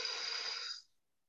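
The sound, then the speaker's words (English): A single deep breath drawn during guided relaxation, a soft, airy rush of air that holds steady for under a second and then quickly fades to silence, with no talking. “let's take a couple deep breaths together, inhaling through your nose, exhaling,”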